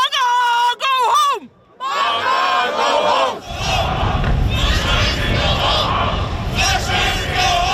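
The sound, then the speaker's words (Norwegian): About 150 demonstrators in Trondheim shout and chant in protest at passengers from the cruise ship Silver Dawn. A few loud single voices open, then a dense, roaring crowd of yelling keeps going without a break. “Det her lyd fra Trondheim I går, for der møtte rundt 150 demonstranter opp for å protestere mot en gruppe av passasjerer på cruiseskipet Silver Dawn.”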